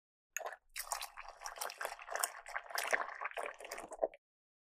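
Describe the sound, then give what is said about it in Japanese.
Hot water is poured into a teapot holding tea leaves, a faint, steady splashing trickle lasting about four seconds that starts and stops abruptly. “急須の中にお茶っ葉とお湯を。”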